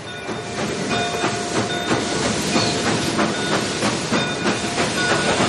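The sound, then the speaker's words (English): Steady rumble and hiss of a locomotive first built over 80 years ago, running on a long, tough railway departing Vancouver, with a continuous loud drone and faint rhythmic clatter throughout. “An extraordinary 3,000-mile journey for a locomotive that first turned a wheel over 80 years ago.”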